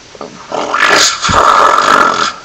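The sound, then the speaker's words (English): A person uses their voice to imitate a turkey vulture call, making a single loud, rough, drawn-out hissing growl that lasts about two seconds. “a YTMND where I make bird noises of all the birds. So I'm gonna try my best to do this. Okay, great blue heron, a turkey vulture,”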